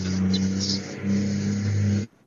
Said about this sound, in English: I just want to do an entire show of just the traffic outside your house.